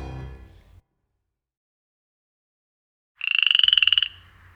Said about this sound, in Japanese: カエルの鳴き声。